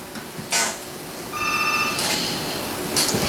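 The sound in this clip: A telephone rings for an incoming call, one short electronic trill set among brief noisy bursts, with no talk.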